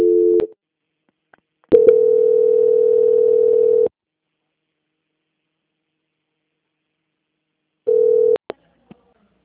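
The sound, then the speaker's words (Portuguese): Steady telephone line tone during a call transfer, sounding as three loud, even bursts: a short one, a longer one of about two seconds, then a short one after a long silence, with a few faint clicks between. “peço que aguarde em linha que vou transferir o seu contato para o controle de qualidade.”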